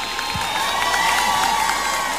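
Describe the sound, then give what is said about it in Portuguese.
Audience cheering and applause for a singer with a powerful voice at a live show, a sustained crowd roar with high shouting voices that holds a steady loudness. “Os aplausos de vocês pra essa voz potente, hein?”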